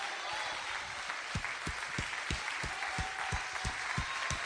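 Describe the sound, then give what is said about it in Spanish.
A church audience applauds, a dense, steady wash of clapping that holds at an even level for the whole stretch. “¿Cuánto le da un aplauso a ese Cristo que nos amó?”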